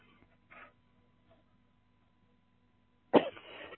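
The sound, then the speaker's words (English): A single sudden, explosive sneeze bursts out loudly after near silence, with only a faint breathy sound earlier and a short rough tail after the burst. “excuse me, I'm going to sneeze.”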